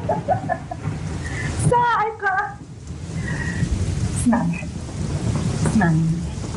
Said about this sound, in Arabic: انت لما بتشوف لمحة البرق معناتها ما رح يصيبك شيء وبس تسمع صوت الرعد يعني معناتها ما صابتك